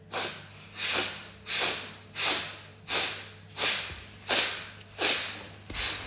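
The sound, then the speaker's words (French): Forceful Kapalabhati yoga breaths, sharp exhales pushed through one nostril while the other is held closed, come as about eight rhythmic, evenly spaced nasal bursts, each a loud breathy whoosh, with no talking. “Donc vous fermez la narine gauche complètement. Donc Kapalabhati, expire fort, contraction du bas du ventre, inspire sans rien forcer, juste très naturellement.”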